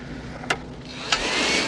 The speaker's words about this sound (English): Scott uses a handheld vacuum to pick up muffin crumbs from Dave's shirt.